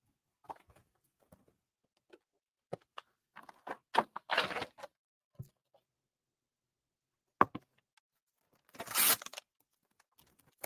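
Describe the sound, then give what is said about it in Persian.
Paper tearing as a page is ripped out of a Quran: two longer, rasping rips stand out among scattered faint crinkles and small taps, with quiet stretches between and no talk. “پس بذاریم اینم قرآن رو پاره کنیم یه صفحه”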